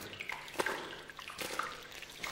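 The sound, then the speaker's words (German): Water in a flooded tunnel, a sound effect for a science-fiction radio drama: faint, irregular splashes and drips with soft sloshing between them, and no voices. “Obacht, wo Sie hintreten. Wasser! Der ganze Tunnel steht voller Wasser.”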